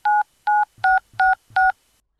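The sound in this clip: Telephone number being dialed with DTMF keypad tones: five short, clear electronic beeps in an even rhythm, each a steady dual-pitched tone separated by brief silences.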